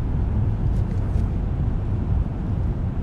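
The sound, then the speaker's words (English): A car driven fast at night along a bumpy road gives a continuous, loud, low rumble of engine and road noise that stays steady throughout. “Budge drives fast, constantly glancing up at the rear view mirror as the bright headlights stay behind him, reflecting off the mirror onto his face.”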